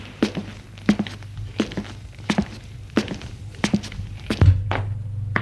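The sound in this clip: Footsteps climb the stairs of a dark apartment-building stairwell up to the third floor: many steady, evenly spaced soft thuds in a regular walking rhythm over a faint low hum.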